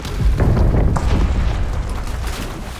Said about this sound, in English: And now that ship's exploded.